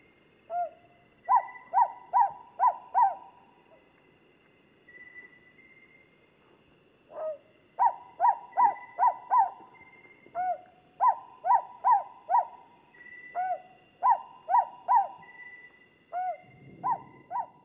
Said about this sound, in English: Here's the sound of another owl in the genus Ninox. This is the Luzon hawk owl from the Philippines.